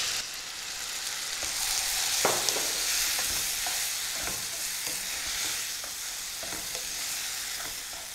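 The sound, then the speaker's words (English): Chopped tomatoes sizzling in a pan with basil and paprika, a steady soft frying hiss broken by scattered scraping stirs of a utensil, with no voices. “And finally I'm going to add in 3 large tomatoes chopped.”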